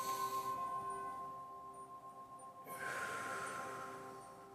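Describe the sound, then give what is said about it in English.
A slow, deep inhalation through the nose, drawn with the diaphragm. A soft, airy hiss swells after a quiet stretch and is held for about two seconds, faint, with no speech. “So you're gonna inhale through your nose, but you're gonna use your diaphragm to expand and breathe in.”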